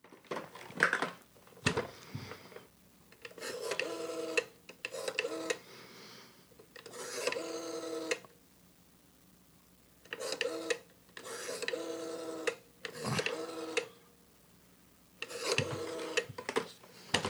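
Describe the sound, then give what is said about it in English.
A rotary telephone being dialed: many raspy, whirring bursts of roughly a second each, separated by short pauses and varying slightly in length. “It's time to do some dialing.”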